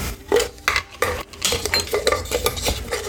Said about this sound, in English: Okay, so you have the 2 cups of flour, and then we're going to put in 1 tablespoon of baking powder.